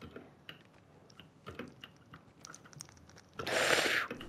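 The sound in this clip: Chewing while eating pizza: soft, irregular crunching and smacking sounds, faint and repeated, ending in a louder noisy burst near the end.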